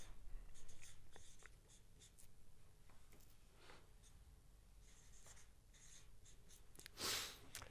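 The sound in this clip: A pen scratches steadily on paper as someone writes out a vote, with many short strokes and brief pauses, faint throughout and with no talk.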